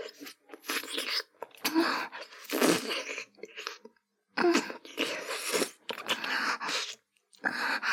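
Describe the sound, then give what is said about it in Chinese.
Crackling and crunching as medicine is worked out of hard-to-open packaging, in several loud, rough bursts of rustling noise separated by short pauses. “我要吃药了，这个药 有点难弄出来呢，得用其他的方法。”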